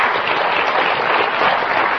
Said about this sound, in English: Give the Lord a big hand clap of praise. Can you do that?